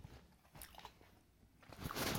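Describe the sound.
A person bites and chews a cheese snack with quiet, moist crunching, a few short bursts early on, then a louder stretch of chewing at the end, with no talk.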